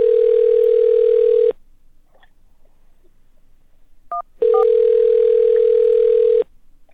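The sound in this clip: A steady telephone tone plays during a call transfer, sounding in two long, even, mid-pitched blocks separated by a pause. A short keypad beep falls in the gap.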